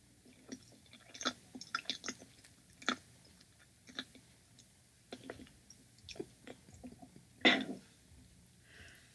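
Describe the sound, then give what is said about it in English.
A woman chewing a banana, with soft, moist mouth sounds and gentle smacking in many small irregular bursts, fairly quiet throughout. “This is the sound of a woman eating a banana.”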